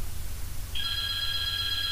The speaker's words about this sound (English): there's the phone. That's probably my dad.